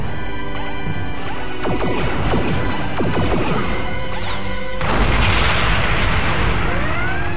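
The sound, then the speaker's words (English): A starship fires all its weapons at full power in rapid fire. Dense, loud sci-fi blasts with sweeping whining tones and crashing impacts run continuously for over seven seconds and swell louder in the second half. “Commence rapid fire with all weapons on full.”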